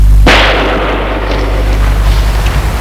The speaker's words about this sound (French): Cours. Coup de feu. Il s'arrête.